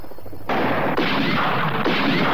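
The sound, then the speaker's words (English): Gunfire from several shooters aimed at a searchlight: a few sharp blasts, each followed by a loud harsh roar of noise that runs on between shots. “When I say go, start firing.”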